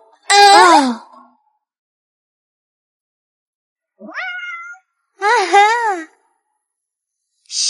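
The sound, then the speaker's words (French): A kitten meows loudly in a few high, wavering, bent-pitch cries separated by stretches of silence. The last meow is cut off at the end. “C'est un chaton!”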